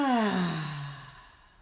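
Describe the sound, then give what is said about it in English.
A long, voiced exhale like a sigh during a guided breathing exercise with the hands placed over the ears, falling steadily in pitch and fading out, heard alone without talk. “Let's take a deep breath in and out.”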